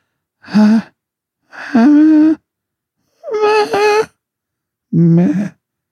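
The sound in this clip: A voice mockingly imitates a pop singer's breathy singing in four short, wavering sung phrases, each about half a second to a second long, separated by pauses.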